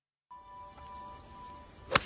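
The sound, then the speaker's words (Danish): A golf club strikes a ball for a hole-in-one on a golf course. A single sharp, crisp crack comes near the end, after a faint, steady tone. “i et vidunderligt klip, hvor at Preben Elkjær han laver en hole-in-one på golfbanen.”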